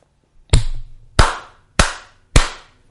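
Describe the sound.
Four sharp hand claps, loud and evenly spaced, each a crisp smack that decays quickly into silence.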